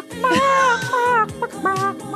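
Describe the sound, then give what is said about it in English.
A person imitates a chicken a cappella with several loud clucking, warbling vocal calls of wavering pitch. The calls come in short bursts with brief gaps, with no other sound behind them. “Again, acapella chicken.”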